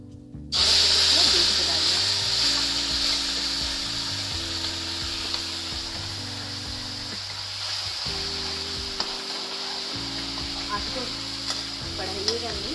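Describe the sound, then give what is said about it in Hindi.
Spices hit hot oil in a kadai over a low gas flame, bursting into a sharp sizzle after a brief quiet start, then settling into a steady, continuous hiss of frying. “हम कढ़ाई में डाल देंगे तेल में जो गरम तेल है उसमें डालेंगे ध्यान रखिए जब आप मसाले डाल रहे हो गैस को धीमा कर लीजिए”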